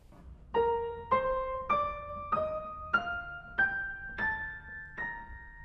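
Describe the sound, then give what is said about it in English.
Piano octaves played by the right hand, legato and without the sustain pedal: eight octaves climb step by step in a clear, moderately quiet line. Each note rings smoothly into the next. “If I were to play, for example, some notes in the right hand without the use of the pedal, and you can hear that you can get quite a bit of legato even without using the pedal.”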